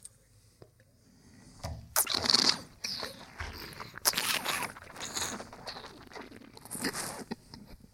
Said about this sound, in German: die Idee ist, Du saugst ein bisschen Luft rein.